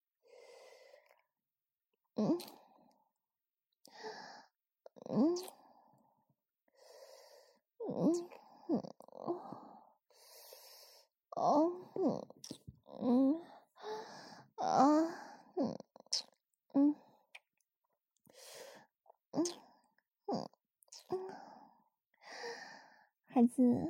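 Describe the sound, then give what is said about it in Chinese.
Soft breaths blown close into the listener's ear: many airy puffs and sighs, some lightly voiced, come in short bursts separated by brief pauses, all gentle and intimate. “舒服吗？对着你的耳朵出气。”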